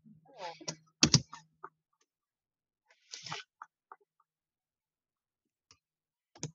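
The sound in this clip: A computer keyboard gives scattered, sparse clicks and taps, interrupted by short bursts of voice, with long quiet gaps between them.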